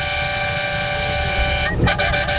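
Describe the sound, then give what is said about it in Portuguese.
Car horns honk loudly as drivers across Brazil join in. A sustained, steady horn blare holds for almost two seconds, then breaks into a few shorter honks. “isso é buzinada, meu filho. Os caras do Brasil inteiro buzinando na Band”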